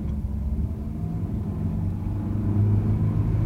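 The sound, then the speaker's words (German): A car drives along with a steady, loud, low engine rumble that holds constant throughout. No voices are heard. “Steigen Sie ein, Sie sind jetzt der Fahrgast. Ja, aber fahren Sie vorsichtig.”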